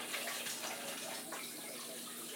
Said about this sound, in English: Just getting this water hot, a little bit hot.